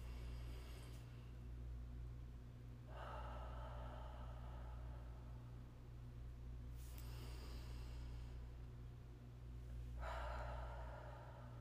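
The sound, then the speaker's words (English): Slow, deep breathing, faint and airy, with a few long breath sounds spaced several seconds apart over a steady low hum. “Take a few deep breaths as we exit.”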